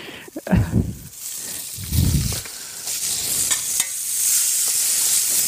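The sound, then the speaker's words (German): Black kale frying in a pan gives a steady, bright sizzle that grows slightly louder toward the end. A few low, scraping stirring strokes interrupt it early on, and no voices are heard. “Aber jetzt durchs Braten wird dann natürlich noch mal dunkler und ich finde, jetzt versteht man, warum er Schwarzkohl heißt.”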